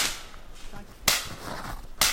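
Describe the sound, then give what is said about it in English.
Two sharp cracks from a .22 rifle fired at a low live branch about 40 feet up a tree, roughly a second apart, each a brief bright snap over faint background noise. “I have along is a .22 rifle. Howe squares his rifle on a nearby tree and aims for a low branch on his potential champion, about 40 feet up.”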